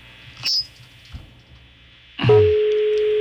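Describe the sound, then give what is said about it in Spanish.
A telephone number being redialed: a brief high beep and a few faint clicks over a low hum, then a steady sustained line tone that continues to the end. “A ver, vamos a marcarlo otra vez.”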